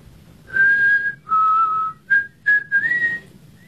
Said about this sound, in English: I taught you how to whistle.